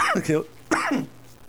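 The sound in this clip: Two harsh, throaty coughs in quick succession during a coughing fit, each burst rough and fairly loud, separated by a brief pause.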